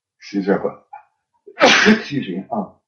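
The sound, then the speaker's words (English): A person's sneeze: a short voiced build-up, then one loud, sharp burst of breathy noise that fades into a few brief trailing vocal sounds. “had a sneeze coming up there. Apologies.”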